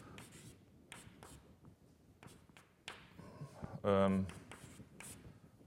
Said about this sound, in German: das schreibe ich noch mal ein bisschen um